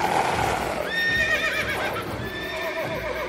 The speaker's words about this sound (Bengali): ঘোড়াগুলো পরিত্রাহী চিৎকার করে পা ছুঁড়ে লাফিয়ে উঠল।